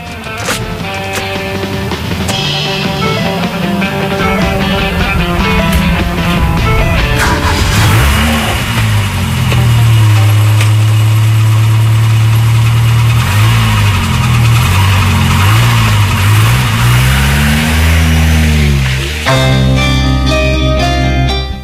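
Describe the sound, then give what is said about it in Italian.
A car engine starts and drives away, loud throughout, moving from a rough idle into sustained revving whose pitch rises and falls before the car pulls off. “c'è una macchina che parte.”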